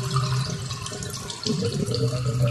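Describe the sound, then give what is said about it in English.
Water gurgling and rushing through house drains in a loud, continuous, bubbling flow that swells slightly toward the end. “Is that what you hear from your drains? If it is, there could be a problem with your sewer”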